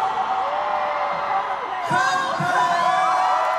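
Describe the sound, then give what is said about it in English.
Concert crowd of about 60,000 cheering and whooping at Singapore National Stadium as a 2024 show begins, a dense steady roar with scattered yells that swells louder partway through. “We're in Singapore National Stadium. The 2024 concert season has started. So please make some noise for”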